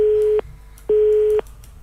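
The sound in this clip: A telephone busy tone sounds after a caller's line to a radio studio drops: two steady, low beeps of equal length separated by a short pause, clear and alone.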